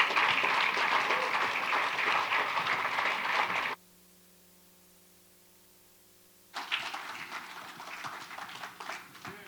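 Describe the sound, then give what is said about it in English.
Audience applause welcomes a keynote speaker at a church weekend gathering in Orlando, Florida: dense, loud clapping, then a stretch of silence, then the clapping resumes at a similar level. “Will you give him a big hand and a big welcome to Orlando, Florida?”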